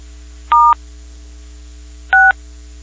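Telephone keypad tones as star and six are pressed during a phone call: two short, clear dual-pitch beeps about a second and a half apart over a steady low hum.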